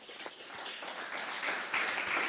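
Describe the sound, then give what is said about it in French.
Audience applause for a guest at a real-estate discussion event, a steady, dense patter of many hands clapping that swells slightly toward the end. “Maître Anne-Sophie Louis, qu'on peut applaudir”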